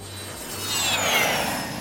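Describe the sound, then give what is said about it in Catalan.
An airplane taking off: a steady jet roar with a thin high whine running through it, swelling a little louder midway and holding. “cada dimarts pujam a l'avió de l'estudi d'IB3 Ràdio i partim a visitar qualsevol mitjà del programa que viu a fora de Balears.”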